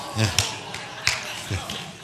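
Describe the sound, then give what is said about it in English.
A man claps slowly, with a few sharp, separate claps at an uneven pace. A low voice murmurs faintly between them. “See my dad clapping over here?”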